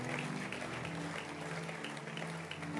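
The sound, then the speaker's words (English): People clapping their hands together for a mother, a faint, steady patter of applause that continues evenly throughout. “Clap your hands for mommy.”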